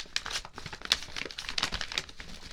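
Crinkling and tearing of packaging as a package from a paper bag is opened, a quiet, continuous run of rustles and short rips with no talk.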